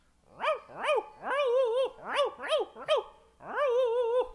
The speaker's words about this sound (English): 12 or 14 multicolored, oddly shaped hounds of various sizes come rolling out from under the front porch or other strategic locations. And they may sound a little like this.